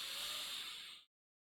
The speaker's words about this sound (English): One more time, a nice deep inhale through your nose.